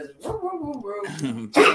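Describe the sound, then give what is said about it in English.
A pet dog barks in a few short, rough bursts, with whining tonal sounds between them and a louder, harsh final bark. “That was my dog barking. That's what he does.”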